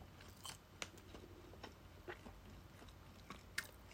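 Someone bites into and chews a convenience-store shrimp cutlet sandwich with cabbage and fairly dry bread. Several faint, irregular crunches stand out over a quiet chewing background, with no talking.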